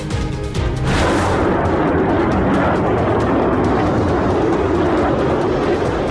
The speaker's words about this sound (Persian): پرواز جنگنده‌های اسرائیلی بر فراز آسمان بیروت.